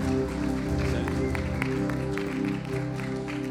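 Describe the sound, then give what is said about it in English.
A church audience on its feet applauds two pastors, a dense, continuous wash of clapping at even loudness throughout. “So, church, can you jump up on your feet, please? How about giving Pastors Wayne and Libby a great big hand now?”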